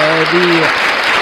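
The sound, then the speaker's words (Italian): Applause sound effect played on an Italian radio show, a dense, steady wash of clapping that stays at an even loudness for the whole brief clip, with a few clear tonal notes sounding over it in the first half. “E beh, facciamo un applauso allora pure a questo punto. Facciamo un applauso.”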